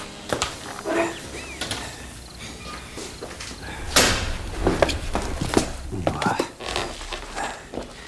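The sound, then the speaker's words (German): The back door of a run-down house opens easily with a series of clunks, rattles and soft scrapes, and a few sharper knocks and shuffling steps stand out over a rough background. “Für seine nicht ganz legale Nachforschung benutzte Tim die Hintertür des verwahrlosten Hauses. Sie ließ sich leicht öffnen.”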